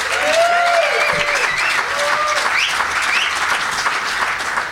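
A crowd applauds to welcome two clinic founders onto a stage at an event. Thick, steady clapping runs throughout, with a few high cheering calls riding over it in the first few seconds.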